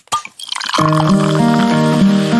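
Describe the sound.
Opening and pouring a bottle of Cusqueña beer: a sharp snap of the cap, then a foamy, fizzing hiss. Steady musical tones come in underneath and carry on to the end.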